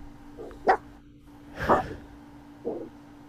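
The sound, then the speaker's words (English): A dog barks three times, about a second apart, with the middle bark loudest, over a faint steady hum. “Is that live barking? Yes, well, it was at the time. It's not now. No. It's a recording? Yes.”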